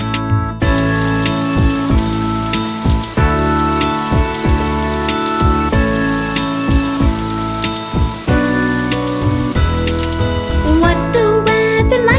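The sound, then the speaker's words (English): Rain pattering steadily beneath music with tonal notes and a rhythmic beat. The patter stays loud and continuous from start to finish. “What's the weather like today? It's raining, it's raining. What's the weather like today? It's raining today.”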